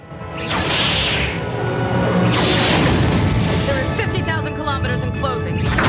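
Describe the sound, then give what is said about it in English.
Weapon fire from a gnarled, almost beetle-shaped spaceship strikes a disabled shuttle in a science-fiction scene: two big booming blasts with sweeping whooshes, followed by a continuing loud, rumbling roar. “A gnarled, almost beetle-shaped ship speeds towards the disabled shuttle, firing.”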